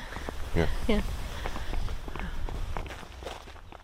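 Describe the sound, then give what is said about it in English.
Footsteps walking along a very narrow strip of grass between a cornfield and a potato field, a steady soft crunching tread under people talking. “We are now walking along a very narrow strip of grass between a cornfield and a potato field.”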